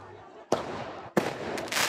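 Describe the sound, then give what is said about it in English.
Firework mortars fired at riot police during a student protest in Bordeaux: two sharp, loud bangs, each trailing into a crackling hiss, with a further burst of noise at the end. “Elsewhere in Bordeaux, sixth form students hurled mortars at riot police.”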